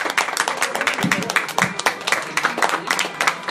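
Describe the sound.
Audience applause at a comic convention greets a Tusken Raider costumed character from Star Wars: dense, even clapping that runs steadily throughout without a break.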